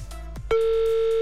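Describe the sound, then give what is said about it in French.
Telephone ringing tone as a call goes through to a listener's home in Éclépens: a fainter tone, then a steady, loud tone that starts partway through and holds to the end. “Ouh, ça sonne à Éclépan chez Sylvia. Va-t-elle décrocher?”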